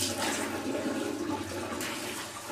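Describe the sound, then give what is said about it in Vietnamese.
Water runs steadily from a tap while hands and arms are washed up to the elbows during ablution before prayer, a continuous rushing splash with no voices. “Này, từ đây mình rửa đây, nước nó chảy nè.”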